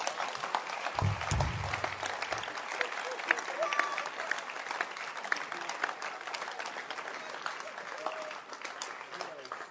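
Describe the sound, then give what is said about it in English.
Hands clapping from a class asked by its teacher, a dense, sustained patter of many hands that continues steadily for the whole stretch at an even level. “You are the class teacher. Can you clap your hands?”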